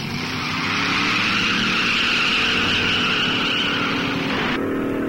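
Dragster cars racing in a drag race: a loud, sustained engine roar with a high screaming tone held for several seconds. The high tone breaks off near the end, leaving a lower rumble.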